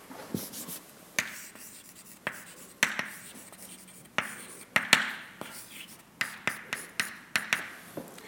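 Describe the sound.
Faint writing of an equation on a board. Many irregular taps and short scratchy strokes come in uneven bursts, with quiet pauses between groups of marks.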